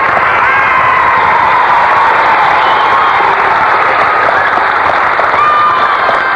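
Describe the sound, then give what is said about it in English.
A studio audience applauds excitedly, with dense clapping mixed with cheers. The applause stays loud and steady from start to finish. “Well, Sybil, sounds like our audience out there is excited about something.”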